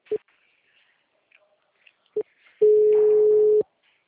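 Telephone call tones: two brief mid-pitched beeps spaced apart, then one longer steady tone lasting about a second, all clear against near silence.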